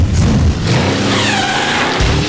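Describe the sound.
A car engine roars loudly while accelerating, a dense, steady rush of sound that dips briefly early on and then holds strong to the end.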